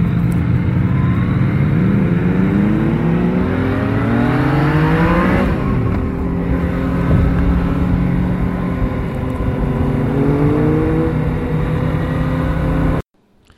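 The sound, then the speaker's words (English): A Yamaha MT-09 motorcycle engine on a test ride gives a loud, continuous note that swells and dips in pitch as it revs, then cuts off abruptly near the end. “that was the MT-09, probably the least favorite of my clips, but in fairness, it's just not a really good audio recording, but kind of gives you a flavor for the sound of the bike.”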